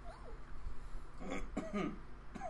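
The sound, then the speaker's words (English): Someone clears their throat in a few short, raspy bursts, quiet and with no talk over it. “I'm just clearing my throat.”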